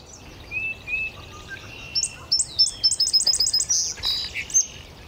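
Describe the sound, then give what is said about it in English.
An indigo bunting singing in a maple tree: high, thin whistled notes in quick phrases, each note or phrase repeated, building into a rapid run of paired chirps over faint background hiss. “Up above us, there's an indigo bunting singing up in the maple right there. It's the bunting. That high-pitched sound, and every note is repeated, every phrase is repeated.”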